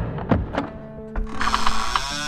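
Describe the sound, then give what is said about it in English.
A bolt is thrown on a wooden trapdoor: a few sharp, hollow clunks at uneven intervals, followed by a sustained mechanical grinding tone as the hatch is worked open. “There was the sound of a bolt being thrown, and then the trapdoor lifted away, allowing light from above to beam in through the now open square.”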